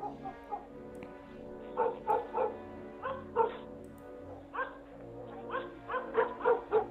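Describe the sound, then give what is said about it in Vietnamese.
Dog barking in the distance near the end of a village lane late at night: many short, faint barks and yips in uneven bursts over a steady low hum. “Phía xa xa đầu ngõ xóm có tiếng con chó sủa nhấm nhách cắn ma của nhà ai vậy.”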